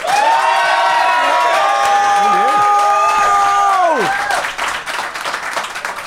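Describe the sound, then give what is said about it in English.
An audience applauding and cheering after a debate vote. Loud, sustained clapping carries high whoops and shouted cheers for about four seconds, then dwindles to scattered claps. “But if you think Josh and Ben made the best case, applaud now.”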